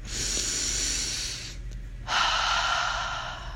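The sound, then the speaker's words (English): A deep breath drawn in and then let out, one long airy inhale followed by a short pause and a louder, rushing exhale, with no voices. “take a big inhale in. And out.”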